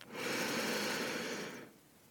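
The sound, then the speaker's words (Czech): A single deep breath drawn in during a guided breathing exercise: a long, steady, airy rush that lasts more than a second and then stops, leaving near silence. “Pořádně se nadechni”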